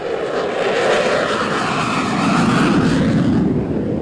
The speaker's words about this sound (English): You have to wear earplugs to get close to the fighters, and they rattle your chest and body as they kick in the afterburners to take off.